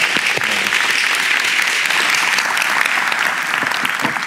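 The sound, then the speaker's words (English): Audience applause at a church service welcoming a guest speaker from the charity Convoy of Hope: strong, continuous clapping that stays loud and steady for several seconds with no break. “So can you put your hands together to welcome, appreciate, and honor Mark and Convoy of Hope?”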